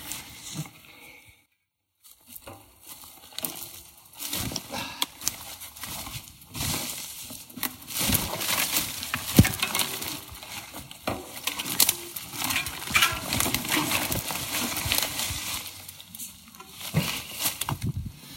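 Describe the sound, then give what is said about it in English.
A mountain bike pushed through dense brush and fallen trees on a backcountry trail in autumn; many dry crackles, snaps and rustles come in irregular bursts after a brief quiet gap near the start. “As you can probably hear, going through a real bushwhacky section right now. A little mixture of hike a bike and bushwhack. There's a lot of trees down.”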